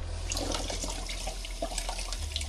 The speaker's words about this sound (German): So können wir den gut waschen.